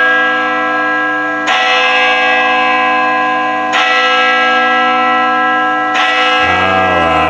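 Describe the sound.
Loud church bells ring in three heavy strikes spaced evenly apart. Each strike sets off a long, sustained, shimmering hum that fills the gap until the next strike.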